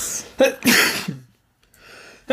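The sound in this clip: A loud, abrupt sneeze made of sharp breathy bursts, then a brief silence and a softer breathy noise before another short burst at the end.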